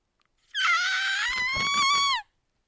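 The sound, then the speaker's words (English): An excited human squeal: one sustained, high-pitched cry of about a second and a half. It jumps up quickly at the start, holds a steady pitch, and dips just before it cuts off. “I squeal. I get excited.”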